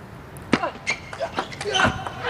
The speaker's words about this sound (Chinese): 对手直接开这个正手位的长球，王楚钦接发球接得不错